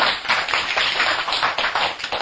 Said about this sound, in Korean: 우리 높이 평가하고 정말 계속해서 잘 되실 수 있도록 다시 한번 박수 좀 부탁드립니다.